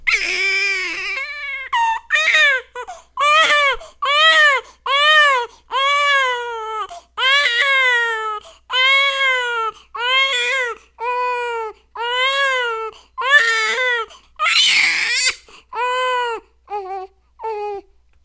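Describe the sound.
A newborn baby about a week old crying in a long series of short, high, wavering wails separated by brief gasps, loud and rhythmic, with a shriller burst near the end.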